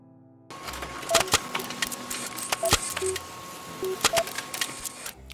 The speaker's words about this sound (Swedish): Jag skriver ut faktan här.